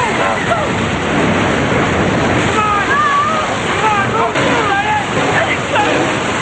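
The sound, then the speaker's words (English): A surge of water thundering through a door that has just been forced open, a loud, continuous rushing roar with voices crying out over it partway through. “It's open! A surge of water thunders toward them.”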